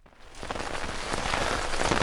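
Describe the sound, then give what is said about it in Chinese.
Rain falls on a military tent on a cold night. Its dense, even patter starts soft and quickly swells to a loud, steady hiss of drops. “那是一个寒冷的雨夜，打在行军帐篷上的雨声几乎遮盖了外面传来的轻轻的低语。”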